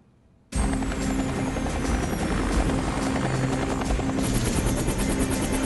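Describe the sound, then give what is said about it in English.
Two military helicopters touching down on a remote airfield: a loud, steady whirring roar of rotors and engines starts abruptly after a brief quiet moment and then holds on without a break. “Two military choppers touch down on a remote airfield.”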